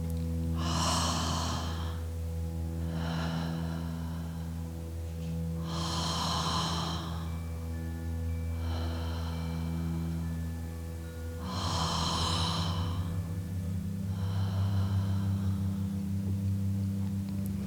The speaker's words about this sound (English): We open our mouths and relax our jaw, taking in an active inhale and a passive exhale, which sounds a little bit like this.